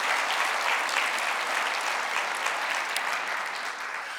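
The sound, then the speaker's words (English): An audience applauds at a church service to welcome a visiting superintendent and his wife: loud, dense, continuous clapping that holds steady and eases off slightly at the end. “Would you stand and give them a welcome this morning?”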